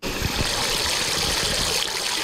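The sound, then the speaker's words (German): Small ground-level water fountains spray and splash at the Elisenbrunnen in Aachen on a warm summer day, a steady, fairly loud rushing hiss of falling water that continues without pause. “Am Aachener Elisenbrunnen springen einige Kinder durch die kleinen Wasserfontänen, die aus dem Boden kommen.”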